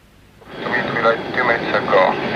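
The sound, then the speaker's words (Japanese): An airplane taking off: a broad engine roar swells in after about half a second and then holds steady and loud, with a slight tonal whine riding on top. “離陸の瞬間、どんなベテランパイロットでも緊張するという。”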